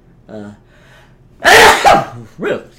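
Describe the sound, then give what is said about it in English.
A sudden loud sneeze from allergies bursts out in two quick parts, with brief, quieter vocal sounds before and after it. “Allergies are a pain in the butt right now, so that's why I already sneezed.”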